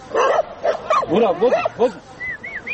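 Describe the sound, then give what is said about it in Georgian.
Stray dogs at a mountain pass barking and yelping: a quick, overlapping jumble of many short, bending yips and whines, ending in a few thin, high squeals. “აქ 10 წელზე მეტია 30-მდე ძაღლი ბინადრობს.”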